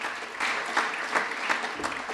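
Applause at an award ceremony for a writing competition: dense, steady clapping from an audience with slight swells, and no talk over it.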